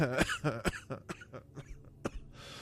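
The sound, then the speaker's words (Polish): Coughing in a quick, uneven string of several dry, harsh coughs and throat-clearing rasps, fairly quiet and alone without speech. “Przepraszam. Zaczynam kaszleć jak Ator.”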